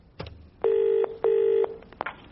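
Telephone ringing on a line: a faint click, then two steady, even bursts of ringing tone separated by a short gap, followed by a couple of soft clicks.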